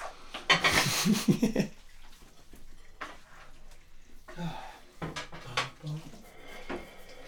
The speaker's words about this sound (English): Will you put the fucking bowls down?